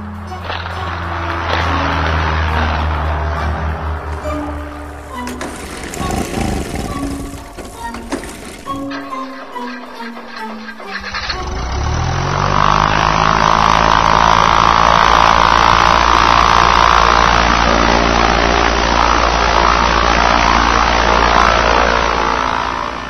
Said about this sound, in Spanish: Voy a probar el motor, y si va bien...